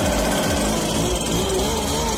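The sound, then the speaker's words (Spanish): A leaf blower runs on a Sunday with a loud, continuous engine roar and broad airy hiss that holds steady, without pause, for the whole stretch. “El soplador de hojas trabaja el domingo”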